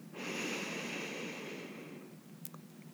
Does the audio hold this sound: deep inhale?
yes